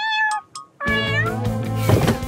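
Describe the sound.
A kitten meowing, with a few high, clear meows. The last is long and drawn out and louder than the short ones before it.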